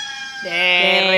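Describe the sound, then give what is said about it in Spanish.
A rooster crows during a farm-animal sound game, a strained, harmonic call that jumps up in pitch partway through and stays loud to the end. “El gallo, muy bien.”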